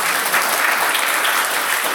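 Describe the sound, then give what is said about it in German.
Studio audience applause at a late-night-style talk show, a dense, steady wash of many hands clapping at full volume for the whole stretch, with no voices over it. “das Publikum, das klatscht, obwohl keiner einen kennt.”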